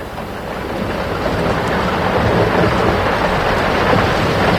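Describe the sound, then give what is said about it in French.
A thunderstorm sounds as a loud, steady wash of heavy rain-like hiss over a low rumble, swelling slightly at first and then holding evenly throughout. “J'ai peur de l'orage. Il ne faut pas, mon enfant. L'orage est aussi une des voix de la nature.”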